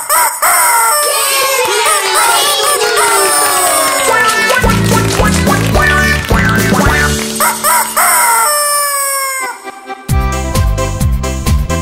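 A rooster crowing amid a lively children's farm song, with a few drawn-out crows rising and falling in pitch over the bright, loud music.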